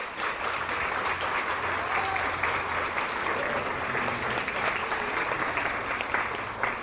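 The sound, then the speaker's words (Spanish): Audience applause welcomes an Aymara Bolivian feminist guest as she is introduced: a soft, even wash of many hands clapping that stays level across the whole clip. “Un aplauso, por favor.”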